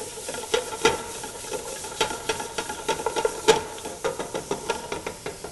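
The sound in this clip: Garlic and shallots sizzle in a pot as a soup base for smoky tomato and cannellini bean soup, a steady frying hiss broken by many light taps and scrapes of stirring.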